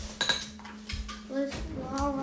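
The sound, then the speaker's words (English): A metal lid is set over a pan dusted with rice flour. A few sharp clinks and clatters come first, then a ringing metallic tone lingers, fairly quiet, with no talk. “Yeah, just the lid goes over it.”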